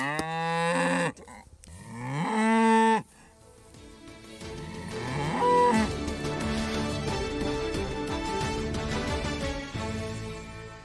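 Cattle moo on a pasture they have grazed bare: two long, loud, deep moos with a rising pull at the start of the second, followed by a quieter, steady stretch of background noise.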